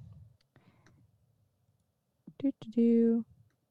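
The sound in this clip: Computer mouse clicks while placing and selecting a character token in a virtual tabletop game. A few quiet, sharp clicks come close together, followed by a short voiced sound, against near silence.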